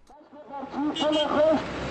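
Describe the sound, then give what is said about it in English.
Car driving past on a busy Kabul street, its loudspeakers blaring a parliamentary candidate's campaign slogans: an amplified voice chanting in steady phrases that grows louder partway through. “On a busy Kabul street, Osman Akran watches as a car, or machina in the local Dari, drives past blaring the campaign slogans of a parliamentary candidate”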